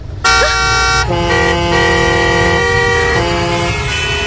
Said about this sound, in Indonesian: Pencet klaksonnya, pencet, pencet!